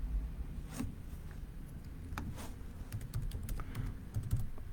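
Faint typing of a message on a computer keyboard: soft, rapid key clicks in uneven bursts over a low, constant hum.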